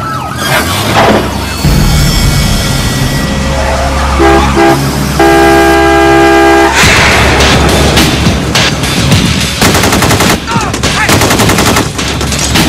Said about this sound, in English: Okay, he's firing. He just shot through his own window.